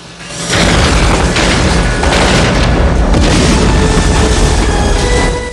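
A grenade explosion blows up a forklift on a factory floor: a loud, sustained booming roar of blast and rumble that fills the whole clip, with a dense crackling wash on top.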